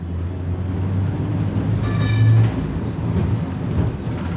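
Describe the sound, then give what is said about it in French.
Riding a tram in Salt Lake City: a continuous low rumble of the moving car, with a brief high-pitched squeal midway and no talk. “Nous montons dans le tramway pour rejoindre le cœur de Salt Lake City.”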